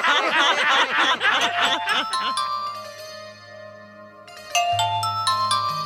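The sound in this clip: A telephone rings with steady electronic ringtone notes after a short burst of laughter, then the ringing changes to a new, brighter tonal pattern.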